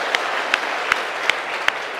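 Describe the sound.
Steady applause from an audience at a Buddhist dharma talk, greeting a student's answer: a dense wash of clapping with a few sharper claps standing out at regular intervals, with no talk over it.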